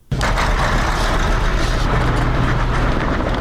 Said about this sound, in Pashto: دا په اورزګان ولایت کې د هغه موټرو د لیژ نمائندګي ده چې کندهار ولایت ته خلک لیژدوي.